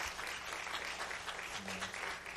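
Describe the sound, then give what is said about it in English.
A church audience gives a sustained, dense round of hand clapping in praise to thank the choir, soft and even throughout with no pauses. “would you please just for a moment just give the Lord a hand clap of praise and thank the choir for all their hard work”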